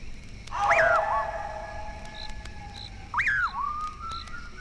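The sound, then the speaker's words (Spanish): A strange, piercing, eerie whistle sounds on a dark road at night, following a man. Two long tonal whistles sweep up and then glide down, the second a few seconds after the first, over a faint low hiss. “Un raro silbido penetrador y espeluznante comienza a dejarse oír tras los pasos de Juan Hilario. Aquel extraño silbido se repite una y otra vez”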